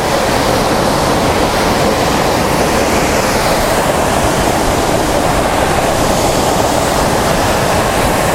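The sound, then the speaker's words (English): A waterfall gives a loud, unbroken roar of rushing water. It stays dense and even from start to finish, with no voices. “I'm going to put the tripod on this ledge. I'm going to point it in roughly the direction of the waterfall.”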